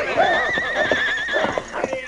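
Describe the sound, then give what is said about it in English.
Three horses whinny in panic, rearing and plunging as a dog nips at their legs and flanks. Long, shrill, wavering neighs mix with scattered clip-clopping hooves. “His attack threw the horses into a panic. They reared and plunged wildly.”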